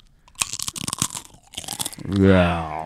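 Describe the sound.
Deep-fried pork rinds from a keto charcuterie board crunched between the teeth: many sharp, crisp crackles in quick succession, followed by a voice.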